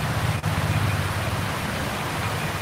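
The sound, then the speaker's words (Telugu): Rain falling more heavily, a steady, dense hiss of countless drops with no distinct individual impacts, holding an even loudness from start to end. “ఇప్పుడు మనకి ఇక్కడ కొద్దిగా వాన పెరుగుతుంది”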